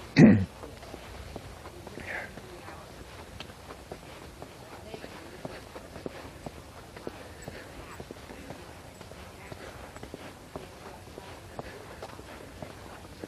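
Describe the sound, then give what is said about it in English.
Footsteps of someone walking: a steady, even rhythm of soft, many steps that continues throughout after a single louder knock right at the start. “So, yeah, here I am, walking again.”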